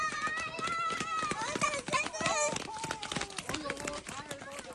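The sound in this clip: About ten children run down a mountain hillside toward a car that has just stopped, their rapid footsteps mixed with continuous excited shouting and chatter.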